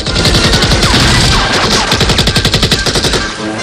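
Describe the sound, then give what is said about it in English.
Loud automatic gunfire as guards shoot at Rambo around a corner: rapid, rattling bursts of machine-gun fire in quick succession that fill the whole stretch, with no voices. “Guards spot Rambo around a corner and fire.”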